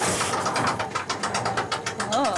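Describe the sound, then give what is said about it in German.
A key turns to the left in a lock mechanism, giving a rapid run of many small ratcheting clicks that keep a fairly even rhythm through the whole clip. “Dann steckst du deinen Schlüssel in die dafür vorgesehene Öffnung. Ja, haben wir? Ja. Dann drehst du den Schlüssel nach links.”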